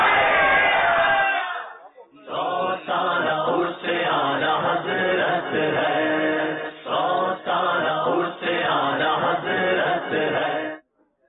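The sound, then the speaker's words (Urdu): A single voice leads off, then an audience at a religious quiz event chants the slogan Faizan-e-Ala Hazrat in several loud, rhythmic bursts separated by short pauses. “نعرہ لگائیے فیضان اعلی حضرت.”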